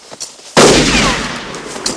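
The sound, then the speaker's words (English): A single loud gunshot fired at riders in open sagebrush country, a sudden heavy blast that rings out and slowly decays, with faint rustling just before it. “Goddamn, somebody's shooting at us.”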